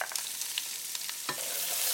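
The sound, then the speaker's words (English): Onion sizzles in hot oil in a pan with cumin and turmeric, a steady crackling fry broken by a few scraping stirs. “Put the cumin in, and immediately put the turmeric in. I love turmeric so much. And it just immediately smells amazing. And then you're gonna toss in your onion.”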